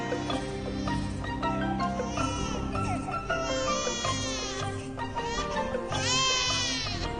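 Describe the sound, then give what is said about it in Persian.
An infant cries loudly and continuously with wailing, strained sobs over a dense, sustained background for about seven seconds. “یه جور اون بچه رو خفش کن، دیگه داره حوصله‌مو سر میبره.”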